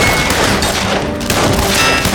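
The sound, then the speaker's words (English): Gunfire from revolvers and assault rifles in a shootout between a shore party and armed men near a bunker door, a dense, loud, continuous barrage of overlapping shots and booms with no clear gaps between reports. “There was gunfire from both sides of her from the shore party.”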